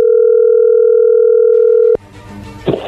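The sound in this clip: Telephone dial tone while a call is being placed: a loud, steady, unbroken hum for about two seconds that cuts off abruptly, leaving quieter line noise and a faint rustle.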